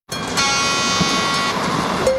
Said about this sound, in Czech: Mimořádný baňský spěšný vlak po uhelných vlečkách Ostravsko-Karvinského černouhelného revíru odjíždí každou sobotu a neděli ze stanice Havířov a Ostrava Střed.